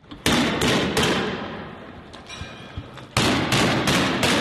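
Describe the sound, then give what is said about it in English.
Police tear gas canisters being fired at protesters near Bethlehem: a quick series of sharp, loud launching thumps, a quieter pause with faint background noise, then another rapid burst of reports. “Israeli police fire multiple tear gas canisters into protesters near Bethlehem.”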